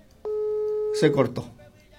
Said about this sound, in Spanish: se cortó la señal. Ahí está sonando su teléfono, quería retomar con él, pero no.